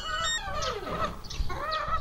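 Hens cluck while being fed grain. A few drawn-out, bright, warbling calls overlap against a continuous low murmur from the flock.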